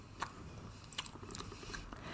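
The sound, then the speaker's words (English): A knife slices through homemade carrot fudge with a thick, jelly-like texture. It makes a few faint clicks and soft taps over a quiet background, with no talking. “Okay, now, let's look at my carrot fudge. I'm just going to slice it. It really does look like thick jelly.”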